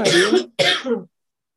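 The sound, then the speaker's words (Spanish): A woman gives two short, harsh coughs, one right after the other with a brief gap between them. The coughs are loud and heard alone. “¿Qué tosió?”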